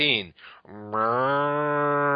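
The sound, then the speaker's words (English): Cows from a herd mooing: a short low call, then a brief break, then a long sustained moo with a rich harmonic tone that holds steady to the end. “A herd of cows.”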